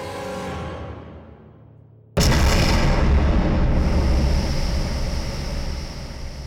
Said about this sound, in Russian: Грохот взрыва раскалывает тишину.